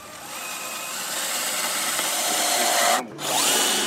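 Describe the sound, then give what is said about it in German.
A power screwdriver whirs as an Iraqi soldier drives a screw during training, its steady motor whine building gradually, cutting out briefly near the end, then resuming. “So, die erste Schraube sitzt. Der irakische Soldat im Mittelpunkt des Geschehens schraubt vermutlich nicht zum ersten Mal”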